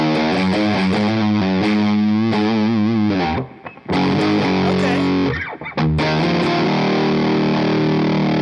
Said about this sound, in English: This is the drive knob maxed up.